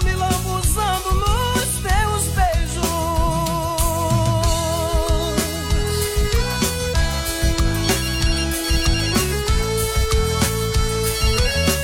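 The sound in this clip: A musical phone ringtone plays a melodic tune over a steady, punchy beat, looping bright synth lines throughout at a loud, even level with no voices.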